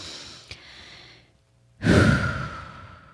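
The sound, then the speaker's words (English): A deep breath, taken slowly: a soft stretch of breathing, a short pause, then one loud, long breath that trails off gradually. “I'm going to take a deep breath with you all.”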